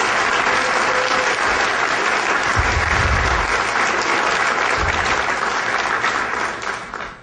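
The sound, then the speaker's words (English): Audience applause for performers on stage at a live event: dense, steady clapping that holds loud for about seven seconds, then thins and fades at the very end. “Give it up for these guys.”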